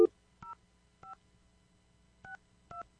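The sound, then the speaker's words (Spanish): Telephone keypad dialing tones: four short, two-pitched electronic beeps at uneven intervals, clear and moderately loud, with no talking. “Estoy marcando aquí. Creo que sí marqué todos los números.”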